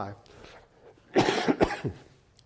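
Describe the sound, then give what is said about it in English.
A man coughs during a sermon, letting out a few harsh, loud bursts in quick succession after a quiet, low background. “Excuse me, I'm going to cough every now and then, all right?”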